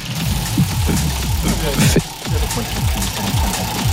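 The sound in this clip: A game show prize wheel spinning, giving a rattling run of ticks that comes in waves while people talk and exclaim over it.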